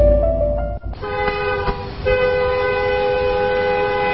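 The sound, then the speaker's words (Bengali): A passing train with its horn sounding: low rumbling rail noise carries a sustained tonal horn blast that starts about one second in and holds steadily to the end, with a brief dip just before it begins. “কি রে নীলু, পরপর তো চারটে train চলে গেল”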